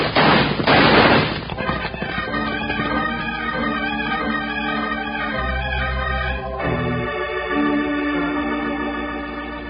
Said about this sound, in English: Well, then blast away. That'll slow him down.